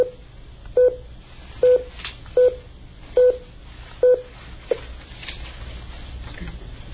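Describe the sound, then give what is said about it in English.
Telephone keypad tones as a passcode is entered to join a conference call: a short series of clear, evenly pitched beeps spaced by brief pauses, over a low steady background hum. “Please enter your passcode followed by the pound or hash key.”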